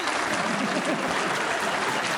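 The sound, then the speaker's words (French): Canned audience laughter from a sound effect, a dense, steady crowd wash that holds at an even level for the whole two seconds. “Tu peux mettre le public qui rigole.”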